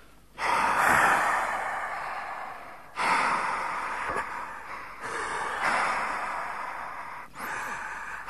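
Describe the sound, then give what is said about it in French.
Two people blowing on a newborn to warm it on a cold 24 December, producing several long, airy puffs of breath in succession with short gaps between them and no talk over them. “Comprenez-moi, on va lui souffler dessus, mon copain et moi. Tous les deux ensemble.”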